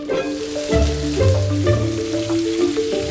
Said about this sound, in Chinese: 煮熟的羚角也是烹调常用的食材，将羚角与水芹菜一同下锅爆炒